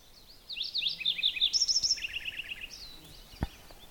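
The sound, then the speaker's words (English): Lincoln's sparrow song: a rapid run of high, sweet chirps and buzzy trilled notes, rising in energy through the middle and fading toward the end, set against quiet background hiss. “I hear another sound. It's a sound of a kind of sparrow.”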